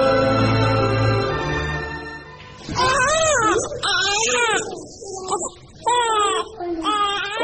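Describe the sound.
An infant cries for milk after its supply has run out, letting out several loud, wavering wails in repeated bursts that follow a steady, droning tone at the start.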